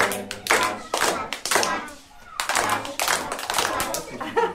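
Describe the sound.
Children clap their hands in a kindergarten morning circle at a daycare in Essen, with bursts of rhythmic clapping alternating with chanted children's voices.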